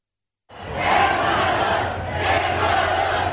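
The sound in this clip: Football stadium crowd during a Germany–Ecuador World Cup match, a loud sustained roar of massed voices that starts abruptly, then swells in two broad waves over a low rumble.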